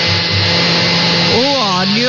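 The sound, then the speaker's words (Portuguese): A blender whirs steadily while beating eggs and warm milk. Its loud, continuous motor drone carries a sustained tone and runs unbroken throughout. “No liquidificador, vai bater os ovos, o leite, viu?”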